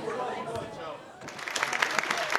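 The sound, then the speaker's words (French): Audience applause at a prize ceremony held in a Paris cinema. A voice talks at first, then dense, crackling clapping swells in midway and continues steadily to the end. “Ces applaudissements, ils sont pour Éric Reinhardt.”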